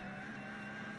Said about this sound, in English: Porsche 911 GT3 Cup car is the noise you can hear.